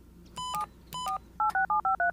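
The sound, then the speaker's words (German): Touch-tone keypad beeps ring out as a number is dialed on a mobile phone: a few longer paired tones, then a rapid run of five short, clear beeps, loud against a quiet background. “Wartet, ich rufe ihn sofort auf seinem Handy an.”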